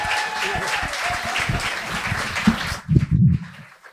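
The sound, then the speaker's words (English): A studio audience applauds a guest co-host on a late-night comedy show, a short, steady round of clapping that tapers off toward the end. “Folks, make some noise for our guest co-host tonight.”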